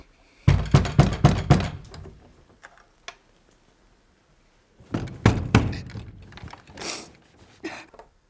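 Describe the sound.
Knocking on a door comes in two bursts of several rapid, hollow knocks, separated by a pause. No voices are heard.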